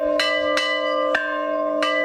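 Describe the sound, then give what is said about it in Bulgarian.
A village church bell rings festively on a feast day, striking four times at uneven intervals. Each stroke is a bright clang that leaves a sustained humming tone ringing between the strikes. “Днес камбаната на храма Света Неделя в село Черепово бие празнично.”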